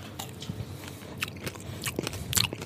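Crunchy biting and chewing on a mouthful of a freshly stirred aubergine dish being tasted, a few moist, crisp bites spread across the moment without speech.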